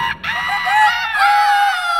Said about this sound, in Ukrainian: Аж тут і півні проспівали.